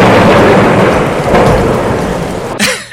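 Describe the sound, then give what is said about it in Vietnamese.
A heavy downpour roars as a steady, loud wash of rain with deep thunder rumbling beneath it, holding almost constant before an abrupt change near the end. “Có một trận mưa rào cực to lắm, chút nước liền 2 giờ, cuối cùng đã dập tắt đám cháy ghê gớm kia.”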